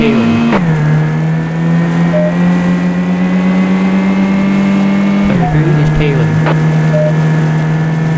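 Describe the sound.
Car engine in a racing video game, a loud, steady droning motor tone that dips in pitch twice, once early and again past the midpoint, before settling back into a sustained hum.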